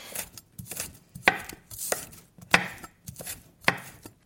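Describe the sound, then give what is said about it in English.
A knife finely chops cucumber and shallot, producing many sharp, crisp chops in an uneven, brisk rhythm with short pauses between bursts. “And then you can add a medium cucumber. Now you're going to want to chop it really, really fine. And then we also add 1 shallot, which is finely chopped.”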